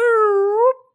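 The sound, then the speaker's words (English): A human voice imitates a police patrol siren with one loud, sustained wail that stays level, rises near the end and then cuts off. “fucking cops doing their patrol. That's the sound of the police.”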